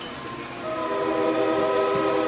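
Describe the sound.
A locomotive's horn blares as it pulls into the end-of-line station at Colón on the Caribbean side. It is one loud, sustained, steady blast rich in harmonics, heard alone without voices.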